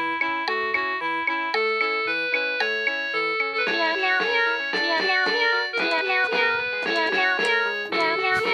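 Cat meow samples are played as a looped melody on a keyboard, with many short pitched notes stepping up and down in a steady, repeating rhythm at full volume.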